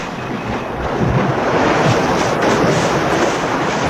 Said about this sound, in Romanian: Valuri!